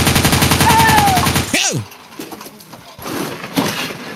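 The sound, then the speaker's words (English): Rapid machine gun fire rattles in a fast, steady burst for about a second and a half, then breaks off in a sharp swooping sound, followed by quieter scattered noises. “He's crazy. He has a machine gun. We're all dead.”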